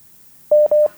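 Telephone tone after a call on a phone-in line is cut off: two brief, identical mid-pitched electronic beeps in quick succession, loud and clear after a silent stretch.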